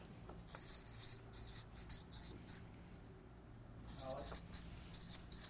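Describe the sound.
A pen scratches across paper as a list is written down, in faint, hissy strokes that come in short bursts with pauses between.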